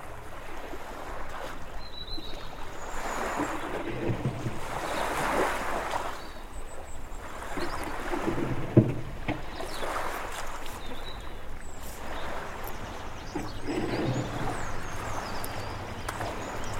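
Oars working a rowing boat on the sea: soft rhythmic swishes of water repeat every couple of seconds over a steady wash of waves, with an occasional knock of wood.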